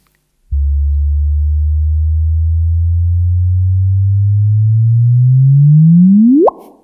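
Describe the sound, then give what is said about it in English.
Sonified gravitational-wave chirp from merging neutron stars: a long, low, steady tone that slowly climbs in pitch, then sweeps sharply upward in its final moment before stopping abruptly. “But we also have the gravitational wave detection. So let's play this one. This sound is going to start quite quiet. Okay, so if you think it's not playing, it is.”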